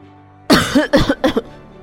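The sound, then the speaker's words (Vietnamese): Choking coughs as someone sputters on saliva: three harsh, gagging bursts in quick succession, loud and alone, with the last two closer together. “Đường Thanh Tùng sặc nước bọt”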